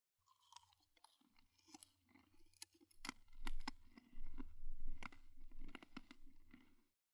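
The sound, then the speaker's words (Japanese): Crunchy bites into a candied apple with a hard candy shell. Crisp crackles and moist chewing crunches grow from faint to louder, with several sharp snaps along the way, and no talking. “次はこっちのリンゴ飴。シャリシャリしてて美味しいよ。”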